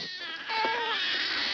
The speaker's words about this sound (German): Captain, die Geräusche von dem U-Boot hören sich an wie Babyschreie.